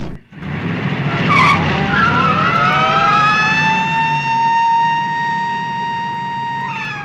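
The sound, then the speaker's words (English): Car accelerating away into the night after dropping off passengers. A loud squealing tyre screech and engine roar rise in pitch, then hold at a steady high whine that gradually eases off. “They stop the car and George and Gwen get out before it accelerates away into the darkness.”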